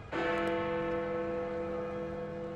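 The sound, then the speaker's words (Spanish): A single stroke of a clock bell rings out: one bright metallic strike, then a long, sustained ringing tone that slowly decays. “Entonces sonó la campanada del reloj.”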